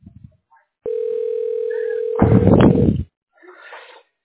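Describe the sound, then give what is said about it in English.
A telephone is dialed. A steady, pure dial tone holds for over a second, a burst of loud, noisy sound then overlaps and replaces it, and a short, fainter rustle follows after a pause. “Dialing.”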